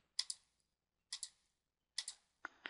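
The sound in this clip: Faint clicking of computer keyboard keys as a geometry calculation is typed out, coming in quick pairs of taps separated by short pauses, four pairs in all.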